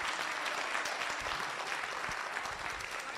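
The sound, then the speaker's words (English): Applause from an audience at a political debate: dense, steady clapping that continues without pause from start to end. “Unfortunately, that applause took up most of your time.”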